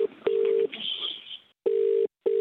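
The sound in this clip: Telephone tones as a call is dialled: a few steady, clear electronic beeps broken by a short patch of noisy hiss and brief silences.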